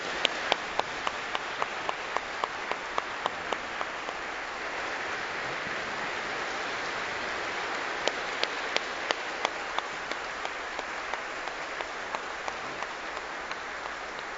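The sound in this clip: An audience applauding in a cathedral during a church service, a dense, sustained wash of clapping lasting the whole stretch, with sharper individual claps standing out at the start and again toward the end.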